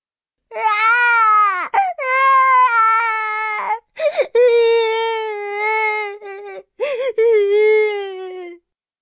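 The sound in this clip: A baby cries in loud, wavering wails that come in a series of sustained bursts broken by brief catches of breath, with the pitch sliding and trembling throughout.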